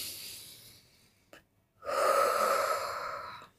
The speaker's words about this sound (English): Let's take a deep breath.